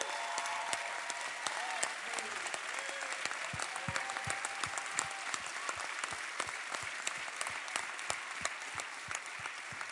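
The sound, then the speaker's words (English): Audience applause welcoming a church men's group: steady clapping with many distinct, sharp individual claps standing out from a softer background of hands. “So please give a warm welcome and put your hands together for all these brothers in King.”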